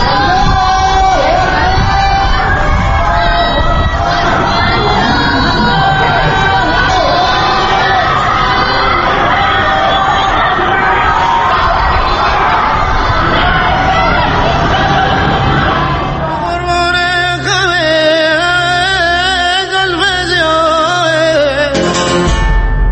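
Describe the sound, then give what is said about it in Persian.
Crowd of protesters shouting at night in Iran, a dense, loud, continuous roar of many voices yelling and cheering, giving way to a music passage in the last several seconds. “ساعت 10 شب به وقت ایران و این صدای اعتراض همچنان به گوش می‌رسد.”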